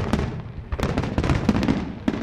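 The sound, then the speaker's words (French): Fireworks at the launch of the Christmas illuminations in Le Touquet, ending a Santa Claus parade with illuminated stilt walkers. Many sharp, loud bangs and pops burst in quick succession over a rumbling background of crackle. “Le feu d'artifice est venu clore le défilé du Père Noël et des échassiers lumineux.”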